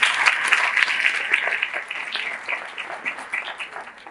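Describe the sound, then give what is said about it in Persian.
An audience at a self-esteem talk claps for themselves: a loud burst of many hands that slowly thins and fades over about four seconds. “دم صداقتتون گرم، یه دست بر خودتون بزنید.”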